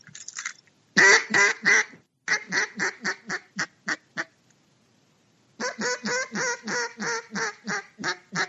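Duck call quacks blown in a cadence: a few longer, higher notes give way to runs of shorter, crisper quacks. Two loud series are separated by a brief pause, the second a steady run of many quick notes.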